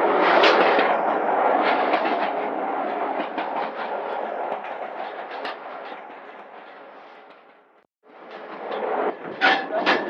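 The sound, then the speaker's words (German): A small diesel locomotive running on rails makes a loud, continuous rattling clatter with rapid metallic knocks; the noise fades out and stops briefly near the end, then resumes with sharper clanks. “wir sind angekommen. Wir steigen jetzt aus der Dieselkatze aus”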